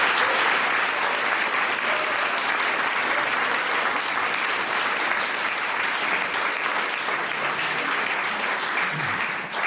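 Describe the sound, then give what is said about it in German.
Audience applause at a literary reading at the Literarisches Kolloquium, loud and dense, a steady wash of many clapping hands that continues without a break across the whole clip. “Regelrechte Fanrufe gibt es hier im Literarischen Kolloquium. Das ist sehr schön, das soll so bleiben.”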